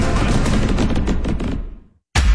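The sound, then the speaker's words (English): Fireworks exploding in a dense string of rapid, loud crackling bursts that fade out into a short silence before another sharp burst erupts at the end. “Come celebrate America's 250th birthday with a boom.”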